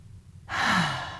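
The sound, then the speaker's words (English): A single long, deep breath during a guided relaxation circle: a soft, breathy rush that starts abruptly and fades gently over under a second, heard alone with no talk. “So if you haven't taken a breath today, I invite you to take a breath. Let's do that together again.”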